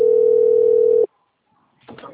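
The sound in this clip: Telephone dial tone heard while placing a call: a steady single-pitched hum lasting about a second that cuts off sharply, followed by near silence and then a voice starting to speak.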